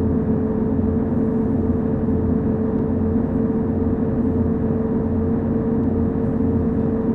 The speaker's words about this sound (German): Fahren wir mit 120 über die Autobahn.